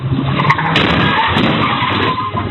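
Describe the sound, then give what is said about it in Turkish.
Harsh, continuous skidding and tire noise from a car whose driver floored the gas instead of braking and struck vehicles on a street in Denizli's Pamukkale district; a loud, unbroken roar of scraping noise fills the whole moment, with no separate impact standing out. “Bir anda gazı kökleyen sürücü önündeki araca ve park halindeki otomobile çarptı.”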